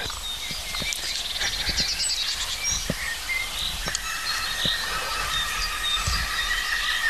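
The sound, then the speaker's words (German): A green woodpecker gives its laughing call, a run of repeated ringing notes, amid thin, high chirps from other birds. “Der Grünspecht lacht uns wieder mal aus.”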